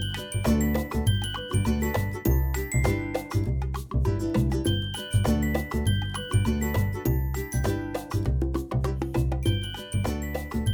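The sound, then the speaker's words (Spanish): Bright intro jingle music with chiming, bell-like notes over a steady bouncy beat, loud and continuous with no voices. “Venga, mientras suena la musiquilla y todo eso, tirada por él.”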